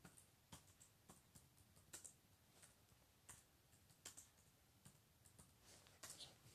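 Faint, irregular clicking of keys as someone types a message on a computer keyboard, with many separate taps.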